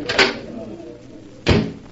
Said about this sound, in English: Here, this door opens onto it.